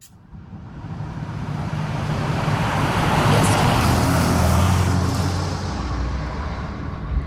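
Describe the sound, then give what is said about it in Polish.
Synthesized sound of a car approaching at a speed setting of 65: a broad road rumble and tyre roar that swells over the first few seconds, holds strong through the middle, then eases slightly toward the end, with no voices. “Prędkość 65. Jest generowanych 5 różnych wersji, więc to jest wersja pierwsza tego przyjeżdżającego samochodu.”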